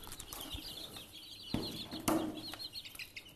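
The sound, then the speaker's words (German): Freshly hatched, hungry chicks on a farm being fed grain: many faint, high, rapid peeps run throughout, over scattered soft taps and a couple of louder bumps. “Die hier sind frisch geschlüpft. So, jetzt füttern wir Küken. Oh ja, die haben schon ganz viel Hunger und die füttern wir mit Getreide.”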